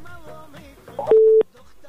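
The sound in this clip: Telephone busy tone after a call is cut off: a single steady, mid-pitched beep of about a third of a second, loud and clean against a faint murmur.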